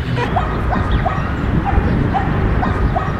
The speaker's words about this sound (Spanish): Y acá es una plaza muy linda, ¿eh? Sí. Hay muchos perros, lo único.